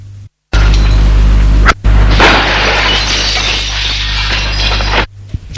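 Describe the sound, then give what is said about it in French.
A glass flask falls to the floor and shatters in a loud, bright crash. Harsh broken-glass noise follows for a few seconds over a steady low hum, then stops abruptly. “Le flacon est tombé à terre. Il s'est brisé.”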